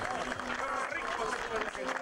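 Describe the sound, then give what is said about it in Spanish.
Crowd applause for the N7 class podium finishers: a dense, steady wash of clapping that holds evenly throughout, with a voice talking over it. “Fuerte el aplauso”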